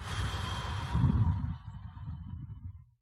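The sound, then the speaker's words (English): A deep breath drawn in through the nose and let out through the mouth: a soft, airy rush of breath, faint and steady, that trails off into silence at the end. “So take a deep breath in through your nose. Hold it. Out through your mouth.”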